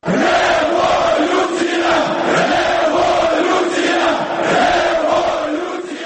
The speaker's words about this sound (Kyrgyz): парламенттин имараты алдында миңдеген демонстранттар Украинанын жана Евробиримдиктин тууларын желбиретип, революция деп ураан чакырып турушту.